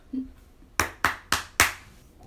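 Four sharp hand claps come in quick succession, clapping along to the Friends theme song, each crisp and distinct over near silence, with a brief faint sound just before them.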